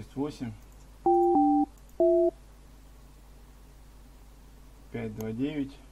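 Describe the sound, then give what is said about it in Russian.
Touch-tone keypad beeps sound as a phone number is dialed to place a call: three short, clean electronic tones, the first two back to back at different pitches. A voice speaks before and after. “сейчас наберем твой номер”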